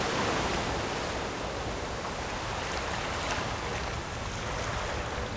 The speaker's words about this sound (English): Sometimes it's the sound of an ocean wave.